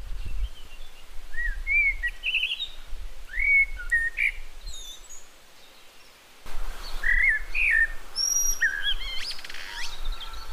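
A bird sings a varied song of clear, high whistled phrases, each shifting in pitch and pattern, delivered in two bursts separated by a brief pause.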